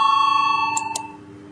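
A bell rings to call a vote during a Latvian-language parliamentary session: a steady, clear ringing tone that holds and then fades away, alone without talk.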